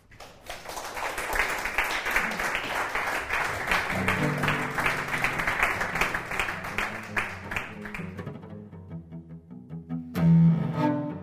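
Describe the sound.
Audience applause welcoming a cellist on stage: dense, steady clapping that holds loud for several seconds, then thins out and fades, followed by a few sustained tones.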